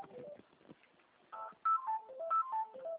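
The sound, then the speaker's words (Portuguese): Incoming call announced by a telephone ringtone: after a quiet, murmuring stretch, a run of short electronic beeps jumps between different pitches in a quick, melodic pattern, fairly loud and clear. “Estão ligando para a senhora aí, né?”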